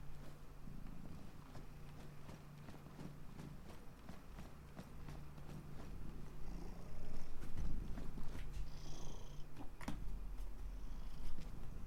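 A cat purring close to the microphone: a low, continuous rumbling purr with soft rhythmic pulses, fairly faint, with a few light clicks and rustles.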